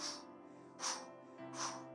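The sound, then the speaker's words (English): Deep breaths drawn in during a guided prayer: three breathy inhalations, evenly spaced, over soft sustained tones. “just breathe in that goodness. Breathe in that fresh air. Breathe in it.”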